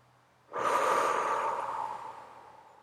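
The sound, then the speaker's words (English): A deep cleansing breath let out through the mouth: a single loud, airy exhale that starts abruptly and fades slowly over a couple of seconds, with no talk. “take a couple of cleansing breaths. So those breaths that come in really deep and then exhale everything out through the mouth.”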